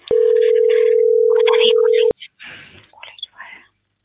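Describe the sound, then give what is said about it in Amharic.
A single steady telephone tone sounds while a call is placed, lasting about two seconds with faint voices under it, then a voice speaks briefly. “አሁን እየደወልኩ ነው።”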